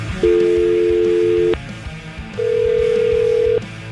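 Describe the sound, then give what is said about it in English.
A telephone call is being placed, with two long, steady ringing tones separated by a short gap. The second tone is higher than the first, and both play over faint background noise. “Let me get her on the phone.”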